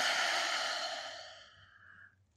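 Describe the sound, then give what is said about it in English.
A deep exhale through an open mouth makes a soft, breathy rush. It starts fairly loud and fades gradually over about two seconds, with no speech. “Open mouth, exhale, let it go.”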